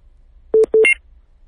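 A telephone is dialed for a call: two short, loud touch-tone beeps in quick succession, the second running into a brief higher chirp, with silence around them.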